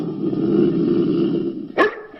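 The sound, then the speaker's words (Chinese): A single sharp dog bark cuts in near the end, loud and brief, over a steady low droning background. “哮天犬，走。”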